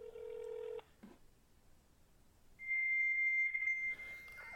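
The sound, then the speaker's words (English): Fax machine tones on a phone call to a fast-food restaurant: a steady low tone cuts off, faint line hiss follows, then a long, piercing high-pitched electronic whine sounds, thin and telephone-filtered. “There's a fax number, apparently.”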